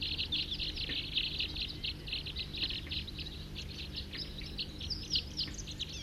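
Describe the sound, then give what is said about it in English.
A flock of about 40 wild birds calls continuously, with many high, overlapping chirps and tweets forming a dense, steady chorus over a low background hum. “Wild birds, 40 calling there.”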